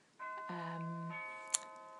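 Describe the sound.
A doorbell rings for a grocery delivery: a two-stage electronic chime of steady, sustained tones that hold and fade, followed by a brief sharp click.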